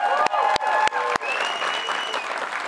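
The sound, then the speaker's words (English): A live studio audience at a weekly BYU men's basketball show applauds in steady, dense clapping; four sharp, evenly spaced hits over sustained musical tones mark the first second before the applause continues alone. “We are joined by a live studio audience you heard just a few seconds ago. We'll hear you again.”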